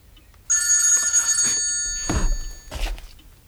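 A telephone rings with one sustained, bright electronic ring about two seconds long, followed by a few faint knocks and rustles.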